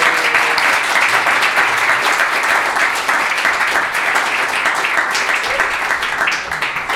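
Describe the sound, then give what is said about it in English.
Loud, sustained audience applause welcoming a guest to a music session, dense clapping that holds steady throughout with no break. “But everybody, please give a warm welcome to Gordon Raphael.”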